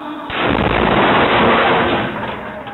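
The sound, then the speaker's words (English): Gunfire and a grenade explosion during an attack by four gunmen on a site in Guadalajara: a sudden loud burst of dense blast noise that begins abruptly and roars on steadily for over two seconds, no voices. “Images show four men shooting on the site whilst employees inside scrambled for cover. Seconds later, a grenade explodes.”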